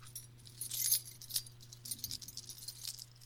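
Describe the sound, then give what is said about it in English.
Keys jangle and scrape as they are dragged around, a continuous metallic clinking with bursts of brighter rattling throughout and no voices. “sounds like that the keys are dragged around.”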